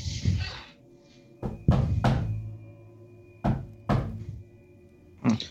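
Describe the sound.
Knocking on a door: several sharp, hollow knocks come in uneven groups separated by pauses, moderately loud against a quiet background, with no talk.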